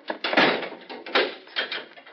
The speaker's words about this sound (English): I'll have to lock you in with him.